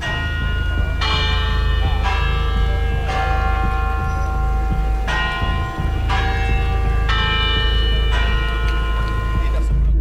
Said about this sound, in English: And the bell serves as kind of a reminder that a quarter of an hour has passed.